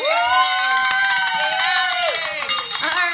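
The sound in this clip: A bell rung to celebrate a new station founder rings bright and sustained, its clear tone holding throughout, while voices cheer and shout along with it.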